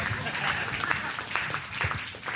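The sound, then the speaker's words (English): A round of applause from an audience: uneven clapping at moderate loudness, with scattered sharper claps rising out of the wash of sound. “Give him a good round of applause and give my watch back.”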